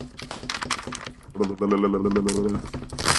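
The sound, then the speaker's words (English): A perforated envelope being torn open gives a buzzy, ripping rasp lasting about a second, with voices talking before and after it. “Ooh, this is a perforated envelope. Could you hear the perforation on this envelope?”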